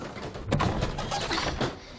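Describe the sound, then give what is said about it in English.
A stuck antique wooden drawer is yanked at, giving a series of rough, jerky scraping and rattling bursts of uneven loudness. “The drawer is stuck. It needs to dry out.”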